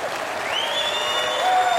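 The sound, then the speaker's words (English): Audience applause for a comedian after a joke about a man choking on asparagus: steady, full clapping that swells slightly toward the end. “I don't know what you're applauding for.”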